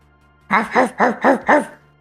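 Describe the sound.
Dog barking: five evenly spaced, tonal barks in a quick regular rhythm, each a short arched burst of similar loudness, standing alone against a quiet background.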